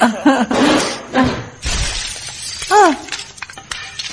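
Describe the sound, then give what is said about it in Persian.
A flower pot in a yard falls and shatters in one loud, crashing break, heard among people talking. “ببخشید آلیس جان، وسط حرفت انگار یکی از گلدونای حیات افتاد و شکست.”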